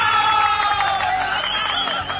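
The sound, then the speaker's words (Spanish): Applause and cheering in a studio for the show's producer. Several voices whoop and cheer over steady clapping, loud and continuous throughout. “A ver, aplauso también para él.”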